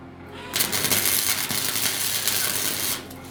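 A welding torch makes good contact on metal, giving a loud crackling sizzle that starts after a brief quiet, holds steady for about two and a half seconds, then cuts off abruptly.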